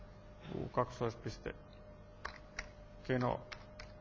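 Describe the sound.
Keystrokes on a computer keyboard while an SCP copy command is typed: a few light, sparse clicks between stretches of speech in Finnish.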